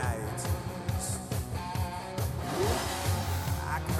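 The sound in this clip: A car engine revving inside a song's breakdown, a rising whine cutting through a steady, thumping rhythmic beat and dense music.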